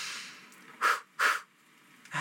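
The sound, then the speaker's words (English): Breath sounds from a guided breathing exercise: two short, airy bursts of breath close together, then a quiet gap before another breath starts at the very end. “This time when you breathe out, breathe all the air out of your body. Breathe in.”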